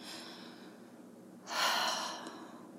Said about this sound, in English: Take a deep breath.